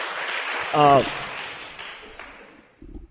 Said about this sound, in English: our great live audience here. Give yourselves a hand.